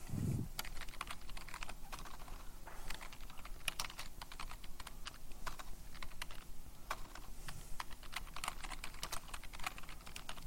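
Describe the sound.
Fast, steady typing on a computer keyboard while pseudocode is written out. Many quiet, closely spaced key clicks run continuously and fairly faintly, with no talking.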